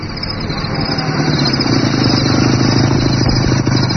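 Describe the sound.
A motorcycle coming up and stopping gives a continuous engine rumble with a light rattle. The engine grows slightly louder at first, then runs steadily at an even level throughout.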